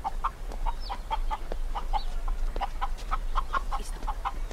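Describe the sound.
Chicken clucking in a steady run of many short, mid-pitched clucks, with a few higher squawks mixed in, heard alone over a constant low hum.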